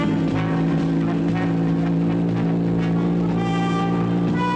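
Steady, loud engine drone of a motorcycle ridden through a forest. It holds a humming tone that barely changes pitch throughout.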